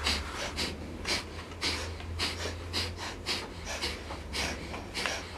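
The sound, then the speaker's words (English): Breath of fire in Kundalini Yoga: rapid, rhythmic nasal inhales and exhales with equal parts in and out, pumped from the navel. Many quick, evenly spaced breathy puffs repeat steadily at a fairly soft level over a faint low hum. “breath of fire is a rapid inhale and exhale through the nose, and we pump the navel with the breath. It's equal parts in, equal parts out, and it sounds like this.”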